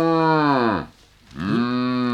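A bull moos twice, each a loud, low, drawn-out lowing call. The first fades away, and after a short gap a second moo swells and holds steady.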